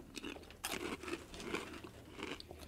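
Crisp crunching of a plain potato curl chip being bitten and chewed, with a few sharp, crackly crunches separated by softer chewing, fairly quiet and heard without talk.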